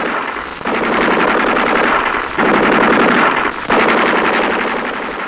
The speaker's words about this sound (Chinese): 是不是敌人发现了我们？不，这是敌人值班机枪。